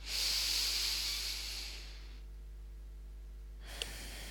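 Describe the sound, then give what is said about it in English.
A deep breath drawn in through the nose and let out through the mouth comes as one long, airy hiss. It fades into quiet after about two seconds, and a tiny click follows near the end. “by taking a deep breath in through the nose and letting it go through the mouth”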